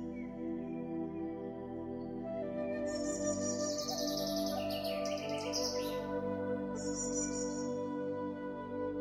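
Birds singing in forest trees, with bright, high chirps and warbles arriving in bursts over a steady, droning tonal background.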